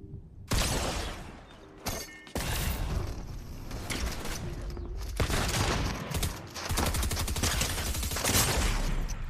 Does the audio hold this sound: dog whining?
no